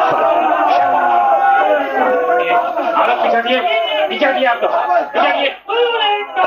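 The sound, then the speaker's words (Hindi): A crowd of many voices chants slogans together, loud and sustained, with shouted phrases overlapping and a brief dip in volume near the end. “अरे अब ये नारे क्यों लगने लगे?”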